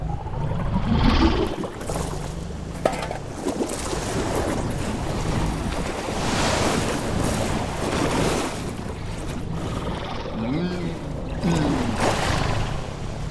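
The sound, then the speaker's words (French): Ocean waves wash steadily in a continuous, full rush of water that barely lets up, swelling slightly in places with no voices present. “Bizarre cette vague.”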